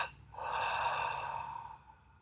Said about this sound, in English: Have as many as you wish. I call those clearing or cleansing breaths.